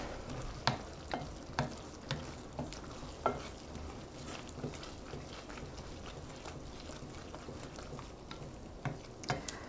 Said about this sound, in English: And by now, my almonds on the back burner are heating up, and I'm just shaking around the skillet a little bit so they brown evenly.